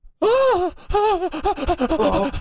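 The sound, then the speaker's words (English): A woman panting and gasping. One long, voiced, breathy gasp is followed by a rapid run of shorter, uneven panting breaths with groaning tones. “She's panting.”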